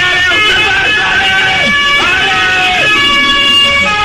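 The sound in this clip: An emergency van's siren wails as it arrives, with loud swooping pitch glides repeating over a dense, steady background.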